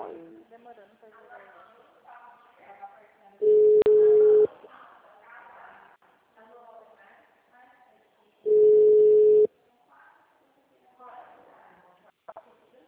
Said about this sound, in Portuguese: caiu a ligação.